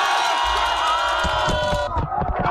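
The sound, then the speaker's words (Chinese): A crowd of neighbours cheers and shouts at a pond-side water-balloon catching contest between teams, a loud, continuous mix of whoops and raised voices that breaks into ragged, uneven bursts toward the end. “荷塘趣味比拼圆满结束，整片池塘久久回荡着大家的欢笑与喝彩。”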